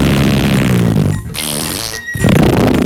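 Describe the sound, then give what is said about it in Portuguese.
A loud, buzzy comic fart sound effect that breaks off briefly in the middle and then blasts on again. “o homem solta um escandaloso e fedorento pum.”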